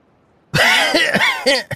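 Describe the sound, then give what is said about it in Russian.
A man's sharp, harsh cough bursts out suddenly and loud, rasping on for about a second, then breaks into a couple of shorter coughs, with no talk. “Его голос прервал резкий кашель.”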